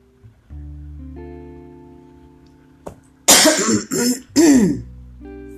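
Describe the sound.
A person with a dry throat coughs and clears it in three harsh, rasping bursts near the end, following a single short click and a long stretch of quiet, steady low humming tones.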